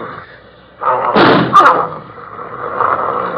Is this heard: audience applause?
no